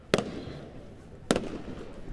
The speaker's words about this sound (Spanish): se escuchan allí los fuegos artificiales. En medio de este escenario de fuegos artificiales se despide este primer recorrido.